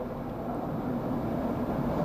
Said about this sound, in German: Hin und wieder rauschte in meinem Rücken ein Zug vorbei.